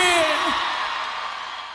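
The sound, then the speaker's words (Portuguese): A crowd cheers and whoops loudly, the noisy burst strongest at the start and then fading away over under two seconds, with a voice trailing off at the very beginning. “Uma salva de palmas e um grito bem forte pra boiadeira aí!”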